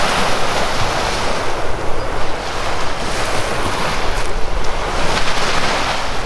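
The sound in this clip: Sea waves washing onto the beach beside Port Morin, a small pleasure harbour below a windmill: a loud, continuous rushing surf mixed with gusting wind noise on the microphone, with no voices.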